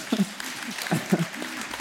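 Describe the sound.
Applause from a church community audience: a short burst of clapping, with voices also heard in it.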